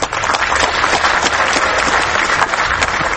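An audience in Kyrgyzstan applauds a film prize winner at an awards event: loud, dense, sustained clapping from many hands, holding a steady level throughout.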